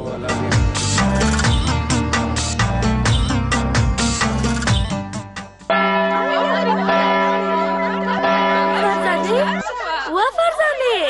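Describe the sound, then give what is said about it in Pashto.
A school recess bell rings in a long, steady, sustained tone lasting several seconds, after a stretch of dense, rhythmic, music-like sound. “دا مې ځکه وویل چې د تفریح زنګ دې وانورېده.”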